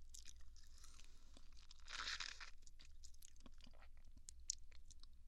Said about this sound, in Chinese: 我不就吃了个草莓吗？